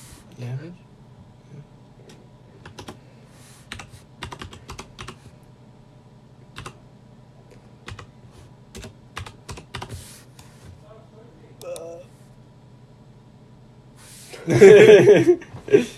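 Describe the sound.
Keys tapped on a numeric keypad: scattered light clicks, some singly and some in quick runs, with pauses between, over a faint steady low hum.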